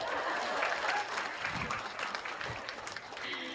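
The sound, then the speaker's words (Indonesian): Audience applause during a live personal talk, a dense, even patter of many hands clapping that holds at a fairly soft level through the whole clip. “Tepuk tangan, tepuk tangan.”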